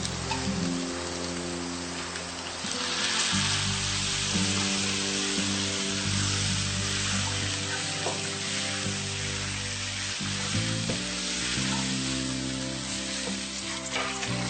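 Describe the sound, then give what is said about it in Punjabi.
Onions frying in a pan until browned, giving a dense, continuous sizzle that stays steady and fairly loud throughout with no voices. “ਹਾਂਜੀ, ਹੁਣ ਗੰਢੇ ਲਾਲ ਹੋ ਗਏ। ਹੁਣ ਨਾ ਤੁਸੀਂ ਗਦਰਿਆ ਹੋਇਆ ਮਸਾਲਾ ਪਾ ਸਕਦੇ ਹੋ।”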